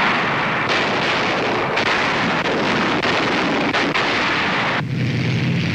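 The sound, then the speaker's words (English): Heavy Allied artillery barrage before a dawn attack in the battle for Cassino: a dense, continuous roar of overlapping gunfire and blasts, held at a steady loudness without pauses. “The heaviest Allied barrage of the war precedes a dawn attack.”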